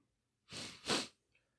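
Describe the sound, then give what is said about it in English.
Two quick nasal sniffles, short breathy bursts with the second slightly louder, faint and alone. “Sniffles.”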